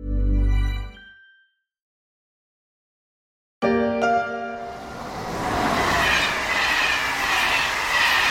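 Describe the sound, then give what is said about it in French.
A TGV high-speed train passes with a sudden loud onset of high squealing wheel tones that gives way to a steady, building roar of rolling rail noise and rhythmic clatter. “Fête ses 40 ans, le TGV, il a rapetissé le territoire français”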